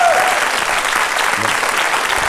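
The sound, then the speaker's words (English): Audience applause erupts as a round for the producer: dense, steady clapping that stays loud and even for the whole stretch without a clear break. “before the scores, big round of applause for producer Emma. Emma Corsham, everybody.”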